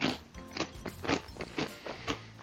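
Crunching of small, thick-cut, bite-size salted chicken flavour potato chips being eaten: about five sharp, dry crunches come in a steady rhythm, each a short burst of crackle.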